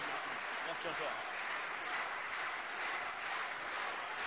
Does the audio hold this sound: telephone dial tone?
no